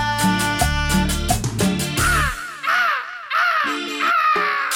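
Harsh, rasping squawks of a pet parrot told to return to its cage: several arched, nasal cries in a row, following a loud stretch of music.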